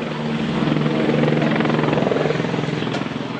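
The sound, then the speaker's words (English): A helicopter flies overhead at a police search of a home in Watertown, Massachusetts, during a manhunt. Its rotor gives a loud, continuous, throbbing drone with a rapid steady pulse, and no talk is heard. “Here's the sound of a helicopter overhead at the scene of police checking a home in Watertown, Massachusetts, during the massive manhunt today for the second bomb suspect.”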